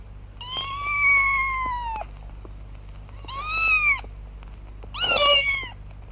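A cat meowing three times, clear and loud: a long drawn-out first meow, a shorter second, then a harsher, more strained third, with no talk.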